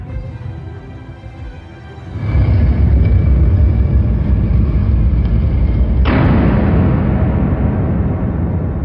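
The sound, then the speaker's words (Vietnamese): A massive hidden stone gate drops inside a tomb's wall at the entrance. A loud, deep, continuous rumble starts suddenly and roars on for several seconds, with a sharp jolt partway through. “bỗng nghe bên ngoài lối vào có tiếng ầm ầm vang dội. Cửa đập ngàn cân giấu trong tường thành hạ xuống, chặn đứng đường lui của đám trộm.”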